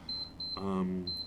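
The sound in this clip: Short, high, thin electronic beeps from a Gymboss Run Walk Run interval workout timer sound a few times in quick bursts, with someone talking over them partway through.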